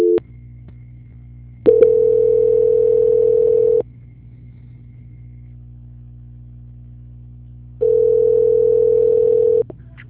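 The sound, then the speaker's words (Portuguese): Telephone tones play while a call is being transferred: two long, steady mid-pitched beeps, each about two seconds, separated by a pause. A low electrical hum runs underneath throughout, with no talk. “Só um minutinho que eu estou transferindo a ligação.”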